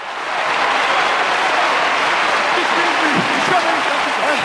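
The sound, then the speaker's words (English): Politburo members stand and applaud the General Secretary with dense, steady clapping that holds at an even loudness after a quick start. “The General Secretary stands up and slowly joins in the applause. The Politburo stands also, and they start clapping.”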